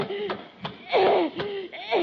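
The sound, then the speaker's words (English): A man chokes and gags in a comedy scene as others try to help, with several strained, voiced gasps and coughing bursts breaking up his breathing; a performer voices the choking. “don't stand there while your brother's choking to death”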